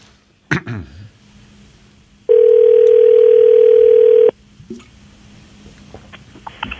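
Telephone dial tone sounds while a call is being placed: a loud, steady, even tone lasts about two seconds, then stops. A sharp click comes before it, and faint soft ticks follow.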